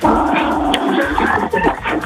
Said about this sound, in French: Oui, il y a le chien qui s'énerve.